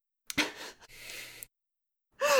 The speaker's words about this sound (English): Deep breath.